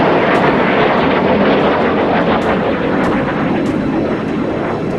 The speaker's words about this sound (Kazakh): Төңкерісшілердің бақылауындағы F-16 жойғыш ұшақтары халықты қорқыту мақсатында Анкара аспанында төмен биіктікте ұша бастады.